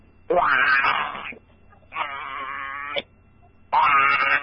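Goat bleating in three drawn-out, wavering calls of about a second each, separated by short pauses; each call is harmonic and nasal, with the first and last slightly louder than the middle one.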